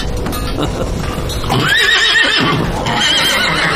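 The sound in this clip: A mare about to give birth neighs, with a couple of shrill, wavering whinnies over a loud, steady background rumble.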